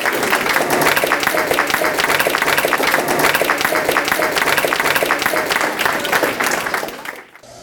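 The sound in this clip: Audience applause welcomes a speaker at a lecture event: dense, steady clapping that holds at an even level for about seven seconds, then tapers off quickly at the end.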